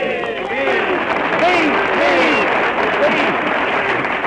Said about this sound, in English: Come on, fellas, let's all give Kenny a big cheer.